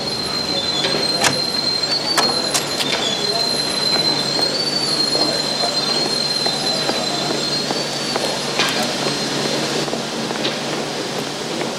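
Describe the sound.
A train stands in a railway station, its wheels squealing sharply above a steady rumble. Scattered metallic clicks and clacks break in now and then.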